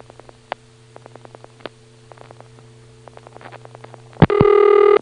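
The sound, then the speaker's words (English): Dialing through an electromechanical NX1-type telephone exchange: many faint, rapid switching clicks over a low steady hum, then one loud click as the register drops out. A sustained buzzing tone follows right after the click. “And then after the last digit, there's a loud click. That's the NX1 Rego dropping out, leaving us on the trunk.”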